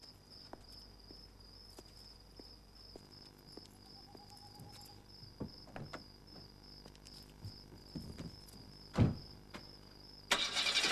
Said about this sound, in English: He drives off into the dark.